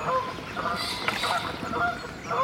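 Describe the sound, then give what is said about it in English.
Geese honk as they are scared off along a river, giving a series of repeated nasal honks of moderate loudness over a soft background hiss. “as we scare off some geese by accident”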